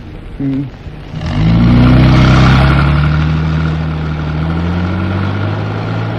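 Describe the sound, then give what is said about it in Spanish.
Car engine accelerating as the vehicle pulls onto an asphalt road: a brief low rumble, then the engine surges into a loud rising rev with climbing tonal whine, settling into a steady driving drone with tire and road noise. “Greta Gary respira, tranquilizándose al tiempo que el árabe hunde el acelerador, proyectando el vehículo en la cinta asfáltica.”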